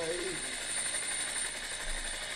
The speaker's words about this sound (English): That's the police captain leaving, I believe, in the chopper to leave the crime scene.